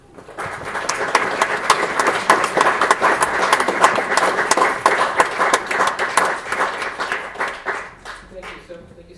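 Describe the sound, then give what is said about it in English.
Audience applause welcoming author Andrew S. Curran at a book talk, clapping that swells quickly, stays thick and lively for several seconds, then dies out toward the end. “To introduce him to us, we're proud to welcome Andrew S.”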